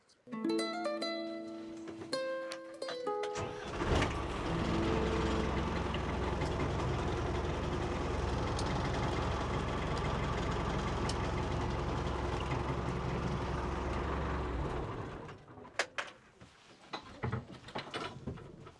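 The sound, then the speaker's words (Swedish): An underwater scooter (diver propulsion vehicle) runs during marine-archaeology work among ancient wooden piles. Its motor gives a loud, steady drone that starts abruptly, holds for about eleven seconds and then cuts off. “så nu kör han undervattensskoter. Därför att den använder vi”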